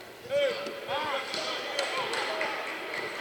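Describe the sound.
A basketball is dribbled on court during a game, with a few soft, regular bounces running beneath a commentator's fast play-by-play and steady crowd noise.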